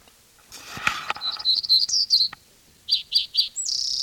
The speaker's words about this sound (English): Black-throated gray warbler in there.